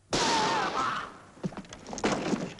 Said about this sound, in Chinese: 真没想到，子弹打中了塞蒙的膝盖。杰克慌了，他扔掉了手枪